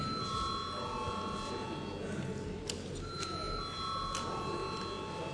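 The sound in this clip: The Latvian Saeima parliament bell rings before a vote, faint sustained metallic ringing tones with a few brief sharp clinks over a quiet chamber background.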